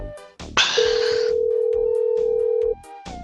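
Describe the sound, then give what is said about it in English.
A telephone dial tone plays while a number is being called: one steady, unbroken tone lasting about two seconds, over a low rhythmic beat, ending abruptly. “Yeah, all the phone numbers that haven't picked up, that's what I'm calling.”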